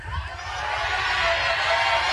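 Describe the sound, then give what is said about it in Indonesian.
Audience clapping and cheering for the finalists at the grand final of the Mas dan Mbak Duta Cilacap 2026 pageant, with a few whoops. The crowd noise swells over the first second, then stays loud and steady. “Tepuk tangan dulu untuk para finalis.”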